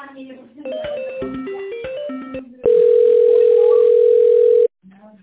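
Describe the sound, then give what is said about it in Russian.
Telephone tones while a call is being transferred: a quick run of shifting beeps, then a loud, steady tone that holds for about two seconds and cuts off abruptly. “По ФСИН, да, сейчас давайте перенаправлю.”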